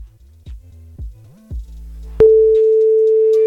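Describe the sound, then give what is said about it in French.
Telephone tones while dialing a call: three short, low beeps over a faint hum, then a loud, steady, sustained tone that holds to the end. “On y va, on appelle Jérém. Dès que ça sonne, c'est à toi”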